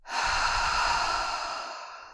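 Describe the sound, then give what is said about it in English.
A long, deep exhale from a person, one breathy sustained rush of air that holds steady and then gradually fades toward the end, with no talk. “And a big exhale out.”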